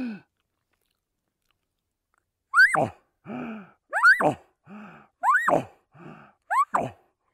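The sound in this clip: A voice imitating a bugle call with growls and loud, exasperated inhalations: four squealing, rising tones alternate with lower, breathy, grunting bursts after a silent opening.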